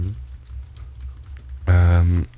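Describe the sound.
Light typing on a computer keyboard while searching for a name online, a few soft, scattered key clicks over a low hum, followed by a short voiced sound from a person.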